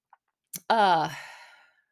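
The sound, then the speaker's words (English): Human yawn: a faint click and a short breath, then a drawn-out voiced exhale that is loud at first and slowly fades away. “I'm yawning again. Oh, I'm so sorry.”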